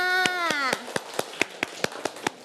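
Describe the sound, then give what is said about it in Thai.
Children in a classroom lesson clap for themselves: sharp, evenly spaced claps in a steady quick rhythm, many in a row, beginning under a speaking voice that soon falls away. “เด็กๆปรบมือให้ตัวเองค่ะ”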